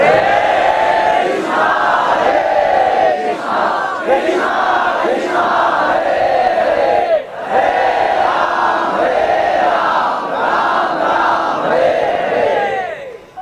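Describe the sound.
At a Ratha Yatra procession, a large crowd loudly chants the holy names, a melodic devotional chant of many voices in unison that repeats the same rising and falling phrase in a steady cycle, with a short dip near the middle.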